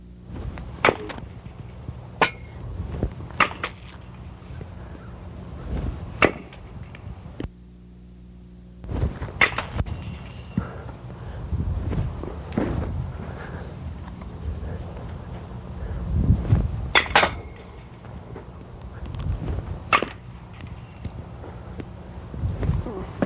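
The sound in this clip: A baseball bat hits balls in a short-distance hard toss batting drill, giving sharp cracks at fairly regular intervals with wind and scuffing in between.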